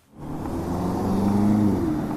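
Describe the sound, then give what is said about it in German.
Car traffic in a busy city square in central Berlin, heard as a steady engine rumble that swells in within the first moment and holds, with a faint tonal engine whine running through it. “Der Potsdamer Platz mitten in Berlin. Hochhäuser, Autos und Ampeln, auch zahlreiche Fußgänger, einzeln oder in Gruppen.”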